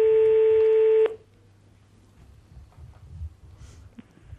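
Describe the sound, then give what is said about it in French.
A telephone tone as a call is placed to a contest entrant: one loud, steady electronic tone lasting about a second, cutting off abruptly into near silence with only a faint low hum and soft rustling. “on appelle tout de suite une personne qui s'est inscrite au 39-21”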